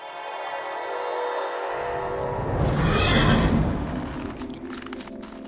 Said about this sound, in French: On est dans le box de Tutu. Il y a une vieille jument qui va mettre bas.